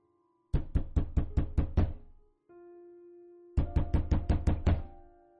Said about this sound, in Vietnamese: thình lình có ai đó đập cửa gấp gáp